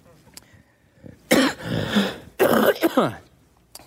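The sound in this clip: Coughing from an asthma flare after singing with a mask on, two loud, harsh bouts of throaty coughs separated by a short pause, with quiet gaps before and after.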